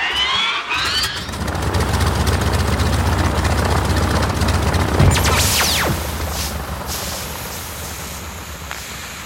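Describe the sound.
An aircraft engine powers up for takeoff in a Christmas story, a loud droning hum that builds over the first second and then holds steady, broken midway by a brief descending whistle.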